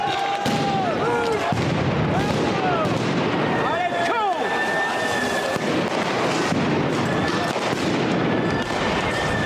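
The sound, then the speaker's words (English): Police fire tear gas canisters at protesters, with bangs mixed into loud, continuous crowd noise. Shrill whistle tones and voices are also heard. “The cops fired a hell of a lot of tear gas. They pushed the black bloc back. More tear gas now.”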